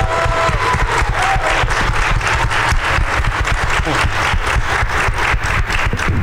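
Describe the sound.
An audience welcomes a guest with loud, dense, steady applause that fills the whole stretch without letting up.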